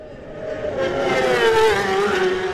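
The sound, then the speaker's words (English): The race leader's machine flies past the grandstand at speed on Glen Crutchery Road at the end of the opening lap, a loud high engine whine that swells and then drops in pitch as it passes, with no voices. “Here at the grandstand, Dean Harrison's about to fly past at the end of the opening lap, your race leader.”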